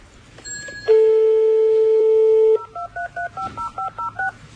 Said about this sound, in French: On appelle un taxi?